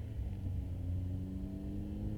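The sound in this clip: Steady low rumble of a car engine while driving around, a continuous drone with a deep hum and no voices.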